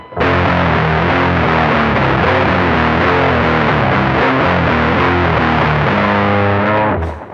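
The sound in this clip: Distorted electric guitar, tuned down, plays a loud, dense riff in a steady, chugging rhythm. Low notes repeat in choppy patterns throughout with no pause until it cuts off near the end.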